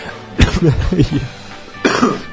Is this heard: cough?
yes